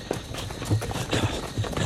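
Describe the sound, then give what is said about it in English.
Rapid running footsteps in a chase, quick thudding steps falling in an uneven rhythm, moderately loud and steady throughout. “Sarah runs. The picture bobbles as Aaron chases her.”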